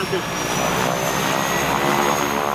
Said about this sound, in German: Die Maschine rollte zum Start. Das vergessene Putztuch flatterte im Wind der Turbinen, was mich an der Zuverlässigkeit dieses Oldtimers zweifeln ließ.